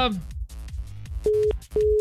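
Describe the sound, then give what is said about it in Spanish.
A phone call cuts off after the caller's prepaid credit runs out: a brief moment of voice gives way to two short, steady, mid-pitched beeps of a dead-line tone. “ay, colgó, ya se le cortó. Se le fue el saldo.”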